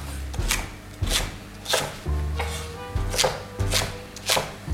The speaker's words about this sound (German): So, die Pastinaken, die schneiden wir auch.